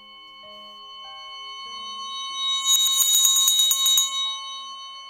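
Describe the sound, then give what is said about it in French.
A small bell rings at a card table, a rapid burst of bright, high metallic strokes in the middle that then dies away, set against quiet sustained tones. “Changement de donne clama le croupier une fois que le tintement de la clochette se fut dissipé.”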